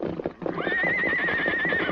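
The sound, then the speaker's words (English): A big black horse trying to break loose neighs loudly in a long, high, wavering whinny, with stamping hoofbeats and rough scuffling underneath throughout. “Look out there! That horse will break leather.”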